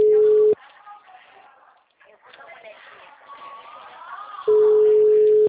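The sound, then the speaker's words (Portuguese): Ringback tone of an outgoing phone call: a steady mid-pitched tone plays at the start and returns near the end, with quieter talking voices in between. “Tá chamando.”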